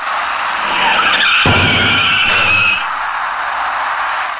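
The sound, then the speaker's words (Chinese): An electric bicycle falls and slides across the road into the right side of a turning taxi at a night-time intersection, a sudden hit followed by a harsh scraping slide over steady traffic noise. “这位直行中的骑车人发现那辆开始右转弯的出租车后，因为慌乱连车带人一起摔倒在路面上，而滑出去的电动自行车撞到了驾驶那辆出租车的右侧车身”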